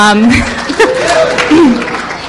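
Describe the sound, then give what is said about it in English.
An audience applauds at a talk panel, with scattered clapping and a few chuckles running beneath a speaking voice. “We have no PowerPoint. We have, yes, I think that is worth a round of applause.”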